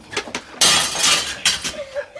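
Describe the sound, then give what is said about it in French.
A window pane is smashed as a household hurriedly fakes poverty: a loud, harsh shattering burst of breaking glass lasting almost a second, then a shorter second crash. “Casse un carreau!”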